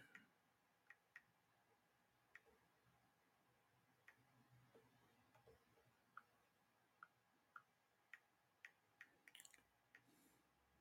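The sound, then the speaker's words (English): Typing on a keyboard gives faint, scattered keystroke clicks, single taps at irregular gaps over about ten seconds, then a quick cluster of clicks near the end, with no talk. “Y'all hear me typing?”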